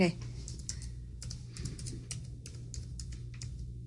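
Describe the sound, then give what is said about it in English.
Fingers type on a computer keyboard: quick, light clicks in uneven bursts beneath people talking, over a low steady hum. “You want to type that stuff down? So. Oh, sure. Here, are you at the slash? Yeah, go ahead, do it. Type it.”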